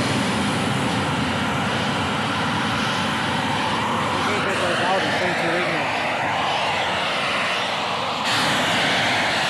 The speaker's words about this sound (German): Fantastisch, ein scharfer blauer Flammenstrahl stand da jetzt hier 30 Sekunden lang über dem Gelände. Ja. Ein Donnern war das.